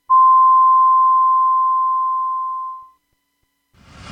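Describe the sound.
A radio station's hourly time signal marks six o'clock with a single long, steady, mid-pitched tone. The tone holds for about three seconds, fades out, and leaves a short hush before faint noise begins.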